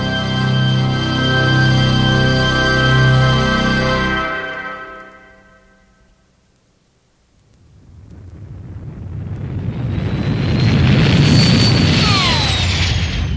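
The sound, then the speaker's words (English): A rocket ship sinking down toward a planet: a sustained tonal drone fades out, then a deep roaring rumble with hiss swells up loud and holds steady. “The rocket ship sank down towards Planet 7 of Star System 84.”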